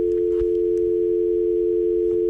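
A telephone tone rings out as a single steady low-pitched hum, held unbroken at even loudness from start to finish with no pauses.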